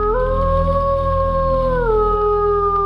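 A she-wolf howls at the mouth of a cave: one long, loud, tonal wail that holds steady, then dips lower toward the end. The howl carries through the whole clip with no talk.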